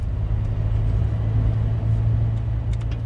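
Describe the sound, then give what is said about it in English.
Steady low engine rumble and road noise from inside a pickup truck driving down a street, continuous and even at moderate loudness with no talk. “You and I are sitting in my pickup truck driving down Broad Street right now”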